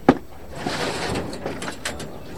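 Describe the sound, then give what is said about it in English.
Broken chairs and tables, looted furniture, being carried back into a university in Iraq: one sharp knock at the start, then a rough, continuous scraping shuffle broken by a few brief bumps. “the sound of looted furniture brought back”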